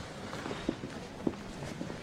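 Footsteps of a woman walking away in a radio drama: a few soft, evenly spaced steps, faint against a low background hiss.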